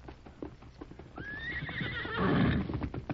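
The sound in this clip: A horse gives a loud whinny that rises, wavers and settles, with a burst of breathy noise near the end. Sharp hoof clops sound before it, on a mount being ridden.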